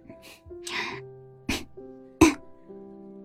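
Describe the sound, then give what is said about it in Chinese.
Two low, deliberate coughs from a person trying to get someone's attention, short sharp bursts over soft sustained tones, after a quieter throat-clearing sound. “故意低咳了两声，意图唤起他的注意。”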